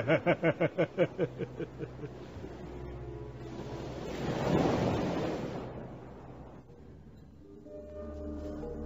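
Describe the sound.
Sea waves on a deserted shore, a soft wash of surf swelling up and then receding, preceded by a quick series of short pulses over low music.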